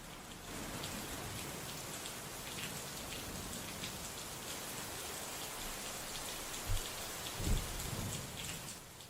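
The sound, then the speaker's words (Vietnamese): Heavy, pouring rain falls in cold Đà Lạt weather, a steady loud hiss throughout. A couple of low thuds stand out near the end. “Thế nhưng nhìn cơn mưa xối xả, Hoa nghiến răng, bấm bụng mặc áo mưa, bước ra khỏi nhà, hòa mình vào trong màn mưa lạnh lẽo của Đà Lạt.”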